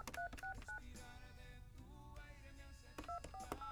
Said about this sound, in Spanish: vamos a marcar 55.